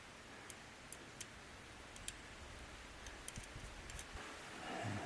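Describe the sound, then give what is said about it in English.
A Chapman tool ratchet snugs up a nut against a nylon washer, giving faint, irregular light clicks spread over a quiet background. “Now we're going to take our handy dandy Chapman tool ratchet. Just going to snug that up.”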